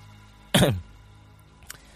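A person clears their throat once before pointing at a man shown on a projector screen: a short, rough burst that fades quickly, followed by near quiet and a faint small click.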